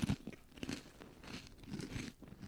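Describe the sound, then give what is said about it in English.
A Clancy's turkey-stuffing-flavored wavy potato chip is bitten and chewed, giving a few loud brittle crunches followed by softer, uneven chewing crackles. “That's a pretty good chip. Tastes like stuffing.”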